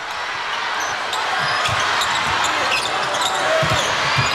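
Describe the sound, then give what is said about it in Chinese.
A basketball is dribbled on the court during a China versus Czech Republic game. Several dull, low thumps repeat under a constant wash of crowd noise. “捷克队还是全场扩大盯人，中国队运球过半场”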